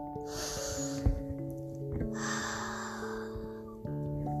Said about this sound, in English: One deep breath in through your nose, and then one deep breath out through your mouth.